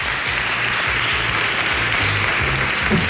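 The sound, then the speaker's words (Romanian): Applause after praise for an initiative of the Romanian Academy: dense, steady clapping from many hands that continues without a break for the whole span. “Suntem uh, bucuroși să aplaudăm încă o dată inițiativa Academiei Române.”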